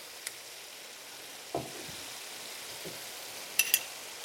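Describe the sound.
A sauce of white wine juices and cream cooks in a pan before tomato paste is added, giving a faint, soft sizzle with a few scattered light ticks and pops.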